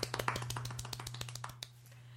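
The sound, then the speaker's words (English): Soft, polite golf clap: many quick, light hand claps in an even patter, fairly quiet over a low steady hum, stopping after about two seconds. “Golf clap. Golf clap.”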